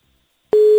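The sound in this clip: A telephone tone on an outgoing call to a woman who has not yet picked up. Silence gives way halfway through to one steady, loud mid-pitched tone that starts abruptly and holds to the end.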